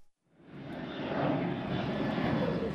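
Aircraft engine roar at New York's JFK Airport swells in over about half a second, then holds as a steady, broad rushing drone.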